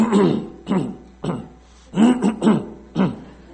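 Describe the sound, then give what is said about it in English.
A person clearing their throat because of a hoarse, frog-in-the-throat feeling: a few short, rough, voiced bursts in an uneven rhythm, heard alone. “I've just cleared my throat because I have a frog in my throat.”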